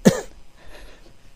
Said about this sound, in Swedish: Jag har så ont i halsen och jag hostar mycket.